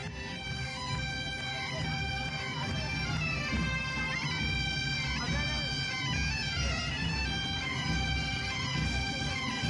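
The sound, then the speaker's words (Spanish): Bagpipes and tambourines at a St Patrick's Day parade on Madrid's Gran Vía, 2024: droning, reedy pipes play a continuous melody over busy low percussion, steady in loudness throughout. “Este sonido me encanta, las gaitas, los panderos. Claro. Este era el sonido que teníamos en Madrid, en la Gran Vía madrileña, pues bueno, el día de San Patricio, del año 2024.”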